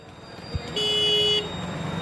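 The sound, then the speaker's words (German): A car horn gives a single steady toot lasting over half a second in slow street traffic on hilly roads, preceded by a short dull thump, with a constant low traffic rumble underneath throughout. “Der Verkehr fließt gemächlich durch die hügeligen Straßen. Kein Stau wie sonst in indischen Städten.”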